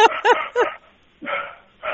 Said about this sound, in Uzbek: Orqada it bo'lsa gapiryapti.